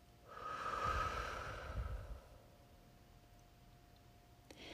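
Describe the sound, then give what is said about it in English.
A deep breath drawn and let out, heard as one long, soft, airy rush of about two seconds, with no talk and only faint background hiss afterward. “One more time, take a deep breath, hold it, and release.”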